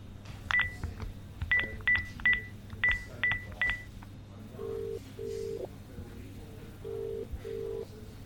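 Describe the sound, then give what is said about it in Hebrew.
Telephone dialing tones of an outgoing call: a quick series of bright touch-tone beeps, then two double ringback tones, lower and longer, over a soft steady hum. “תתקשרו למיץ' מהר ותראו מה הוא אומר על זה.”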